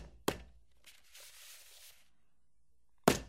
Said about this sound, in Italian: Il rumore di timbro era molto pesante. Però aveva un sapore. Aveva un sapore della libertà, sì.